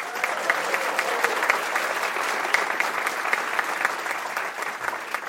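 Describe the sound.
An audience at a live event applauds to welcome a guest. Dense, even clapping holds steady for about five seconds without any talk.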